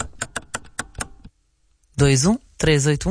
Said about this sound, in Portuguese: Rasgar um tecido, o barulho que todos procuravam.